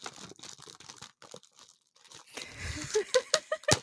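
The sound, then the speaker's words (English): Oreo cookies handled for ASMR crinkle and crunch: soft rustling and scattered crackles, then a louder run of many sharp, crisp snaps toward the end. “No, this is going to be Oreo ASMR. Ready? Are you ready for this? You got to accept this if you're going to keep listening.”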